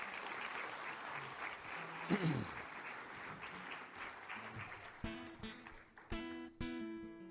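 A church audience applauds to welcome a guest, a steady crowd clapping lasting about five seconds, followed by a few sharp, ringing musical strums.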